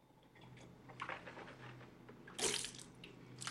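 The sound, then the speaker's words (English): Faint water running and splashing at a bathroom sink as a man rinses his mouth after brushing his teeth, with soft gurgles and a louder splash near the end. “brushes his teeth and rinses his mouth out with water.”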